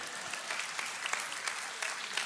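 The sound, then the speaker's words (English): Church audience clapping during a service: a fairly quiet, dense wash of applause with a few sharper individual claps standing out. “Yeah, you can clap for Anita.”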